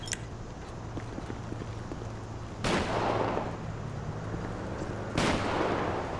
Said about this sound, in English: He's down there firing shots.